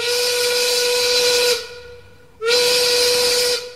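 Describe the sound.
Two long, steady train whistle blasts of a steam-whistle type, each lasting about a second and a half, separated by a short quiet gap, with a breathy hiss over a sustained tone.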